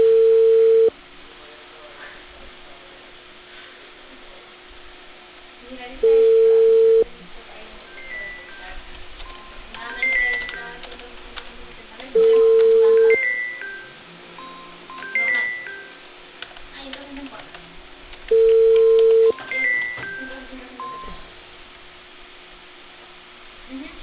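Telephone line tones: four steady, mid-pitched one-second beeps repeating at even intervals, with quieter, faint musical sounds filling the gaps between them.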